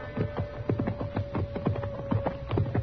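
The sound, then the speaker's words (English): Horse hooves clip-clop as a rider heads out at night onto the prairie near Dodge, many evenly spaced beats in a steady walking rhythm over a faint low hum. “Dodge was fairly quiet that night, and when somebody reported seeing a fire of some kind out on the prairie, I decided I might as well ride out and have a look.”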